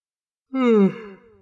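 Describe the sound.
A woman's wide, forceful yawn: a single short voiced exhale that slides downward in pitch, loud at first, then trailing off into a softer breathy tail, heard alone.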